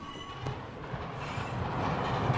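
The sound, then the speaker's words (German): A railway wagon rolls into the retarder of a hump yard, where it is to be braked hard; a steady rumble of rolling wheels that grows slightly louder toward the end, with no clear squeal standing out. “Und dann fährt der Waggon hier rein und dann zack, bremst fest.”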